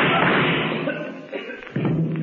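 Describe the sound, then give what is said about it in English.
A gunshot in a radio crime drama, set inside a vault: one sharp, muffled bang that cuts in abruptly after a steady stretch of dense sound. “So, Kelvin, you shot Berger and added murder to your other crime.”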